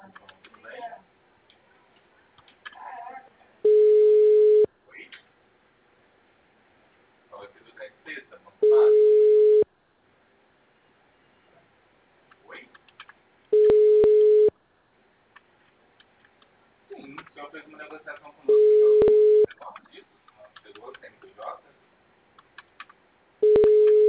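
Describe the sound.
Telephone busy signal: a steady, mid-pitched beep about a second long that repeats five times, roughly every five seconds, with a voice speaking in the gaps between the tones.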